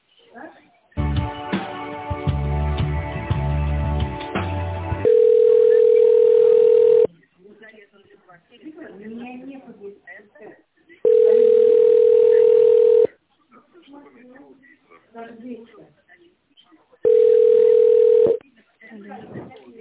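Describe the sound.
A telephone ringing tone sounds while a call is being transferred: three long, steady beeps at an even pitch, separated by gaps in which voices talk.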